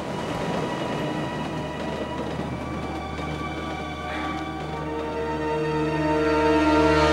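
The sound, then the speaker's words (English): A locomotive and its carriages speed past, a dense rumbling, rattling roar with sustained metallic whining tones, growing louder toward the end. “they watch as the locomotive and carriages fly past to finally disappear into the darkness”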